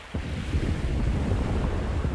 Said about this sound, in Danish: Vinden blæser kraftigt fra nordvest.